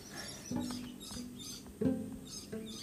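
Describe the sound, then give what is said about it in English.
Birds chirp outside a window: faint, short chirps come a few times over a soft, steady background hiss. “birds outside my window”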